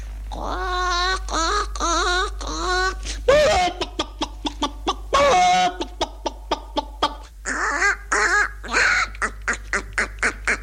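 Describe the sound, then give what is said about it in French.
A person's voice imitates a hen clucking. A few drawn-out voiced calls lead into a long, quick run of short, sharp clucks, with no other sounds. “Faites-moi une poule, allez-y !”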